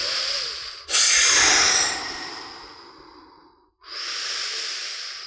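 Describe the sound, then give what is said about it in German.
Breathing in and out on request: loud, airy breath sounds, with one long breath lasting about three seconds, a brief pause and then another breath, with no talk. “alle mal einfach kurz mal einatmen”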